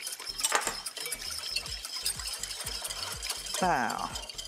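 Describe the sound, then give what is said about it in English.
Spoon strokes scrape steadily through a mixture of palm sugar and brown sugar, many quick repeated stirring strokes at an even rhythm, fairly loud and with no talk over them. “And then we mix it up.”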